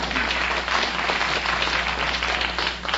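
A quiz show studio audience applauds in dense, steady clapping that holds at an even level throughout, with no talking.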